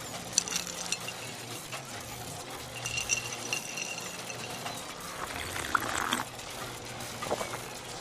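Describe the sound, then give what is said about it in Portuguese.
Liquid sloshing and pouring from a bottle of Paraty cachaça as someone drinks, with a few faint glassy clinks over a steady, hissy background. “Isso enquanto beberica sua garrafa de Paraty.”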